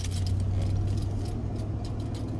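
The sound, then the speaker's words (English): Steady motorized droning with a low hum as surplus pine logs are cut up in a yard, continuous and fairly loud throughout. “pine tree up. I've had some surplus pine logs in the yard. Friend gave me, cut them down on their property, so they sat for months, and now I am slicing them up”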